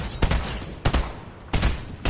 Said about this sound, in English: Who's shooting?